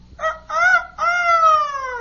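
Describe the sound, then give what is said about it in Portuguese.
A rooster crows cocoricó, loud and clear, in three parts: a short note, a slightly longer one, then a long held note that falls slightly in pitch. “Agora eu sou um galinho. E, amiguinhos, vejam só. Em vez de kikiriki, eu faço cocoricó.”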